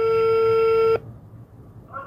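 Telephone call tone as a reporter rings a school principal. A single steady electronic tone sounds for about a second and cuts off sharply. Quiet follows, then a short new tone begins just before the end.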